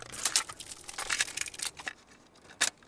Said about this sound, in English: That's the sound of a brand new cassette tape being unwrapped and put into a cassette deck.